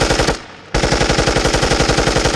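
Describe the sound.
Machine-gun fire sound effect: a loud, rapid, evenly spaced rattle of shots. A brief burst, a short silent gap, then a longer sustained volley at the same fast rate.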